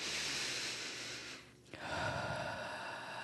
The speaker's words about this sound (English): So take a deep breath with me.